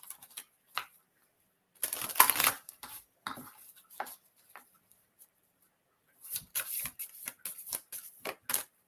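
Tarot cards are shuffled in irregular bursts of papery riffling, flicks and soft slaps, separated by short quiet gaps. The sounds are faint, with a busier flurry near the start and another toward the end.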